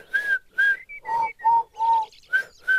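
A person whistles an imitation of a lark's song in short, clear, separate notes: two high notes, then several lower ones, then high notes again, with no other sound.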